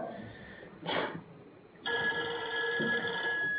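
A telephone rings during a class. A short noisy burst comes first, then a steady tonal ringtone carries through the second half.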